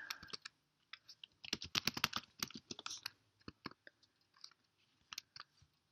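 Faint clatter of typing on a computer keyboard, many light irregular keystrokes in uneven bursts, busiest in the middle and thinning toward the end.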